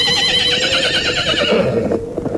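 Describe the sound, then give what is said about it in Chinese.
A war horse galloping in at dawn gives a loud, wavering whinny that holds high and then drops and fades, over a rough, continuous rumble of hoofbeats. “远处清脆的马蹄声中，一匹战马从地平线尽头的晨曦中飞奔而来”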